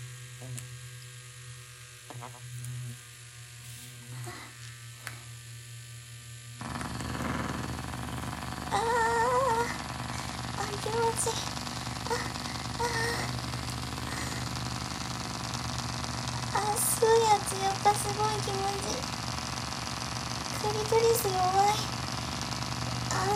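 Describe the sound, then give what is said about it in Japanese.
A dental rotor drill and suction device run during dental treatment, giving a steady high whine over a low hum that grows louder after a few seconds, with voices talking over it throughout. “ローター入れて、もう一度吸うやつつけますね。”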